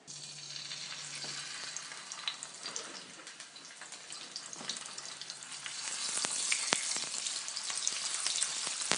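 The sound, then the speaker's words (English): Octopus sears in a smoking-hot pan with high-smoke-point rice bran oil, giving a steady, hissing sizzle full of fine crackles and pops that grows louder and busier toward the end. “Best way to braise an octopus or a squid, unless you want it to just have a really subtle flavor, is to really sear it.”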